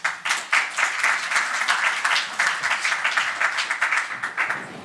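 Audience applause welcoming a moderator at an evening event, loud and dense with many hands clapping, pulsing slightly in rhythmic surges as the clapping carries on.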